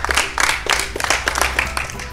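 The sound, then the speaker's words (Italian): Applause for a young audience at a live radio show, many hands clapping in a loose, pulsing rhythm of repeated bursts. “E con questo entusiasmo, tra l'altro, un bel applauso per l'entusiasmo.”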